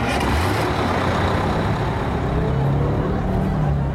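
A bus engine rumbles loud and steady, with a deep low drone and broad road noise that holds level throughout, without speech.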